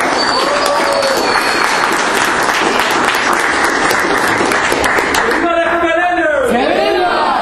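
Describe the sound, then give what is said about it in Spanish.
Audience applause at a UCLA Raza graduates' event before a cinema screening: sustained, dense clapping with voices over it throughout. “un aplauso a ustedes mismos por venir este día”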